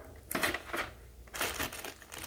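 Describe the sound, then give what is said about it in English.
Small pieces of tape peeled off a new appliance unit give a few short, crinkly ripping bursts, fairly loud and with no talk. “Pull off these little pieces of tape.”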